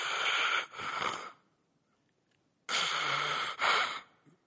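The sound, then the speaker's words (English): A voice imitates the hissing breathing of a man lying reclined in bed with a respirator mask: two long, rasping breath cycles, each in two hissing parts, separated by a quiet pause. “he's got one of these, like, Darth Vader's breathing masks on, okay? So he's laying there like this, and what you hear is,”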